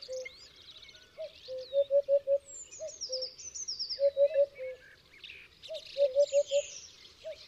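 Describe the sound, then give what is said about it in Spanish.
Common house martins twitter in spring, giving short bursts of rapid, repeated chirps in three clusters. Thinner, higher twitters weave faintly between them. “los primeros aviones comunes. Trizar se llama este sonido.”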